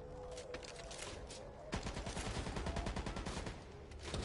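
Pistol gunfire in a video game: a fast string of many sharp shots bursts in over dense, noisy game background and stays loud and steady to the end.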